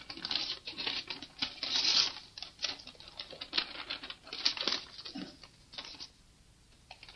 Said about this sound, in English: Now I'm going to have you open the envelope and read out the list of accomplishments made by the United Kingdom